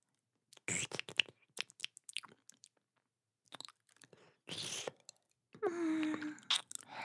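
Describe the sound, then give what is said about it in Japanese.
Soft, wet licking sounds move around the ear in ASMR style: scattered smacks, clicks and moist mouth noises in short bursts, faint and close, with a brief low vocal murmur near the end. “耳の中じゃなくて、まだ周りだけ舐めてるんだよ。”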